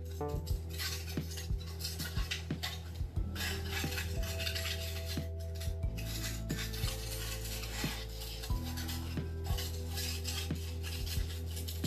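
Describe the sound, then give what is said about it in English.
Scraping, rubbing and metallic clicking as a car filter is pulled out of its locking slot during an oil change, a busy run of rattles and small clinks over a steady low hum. “get it nice and clean. Let's pull this filter out. Kind of locks in place.”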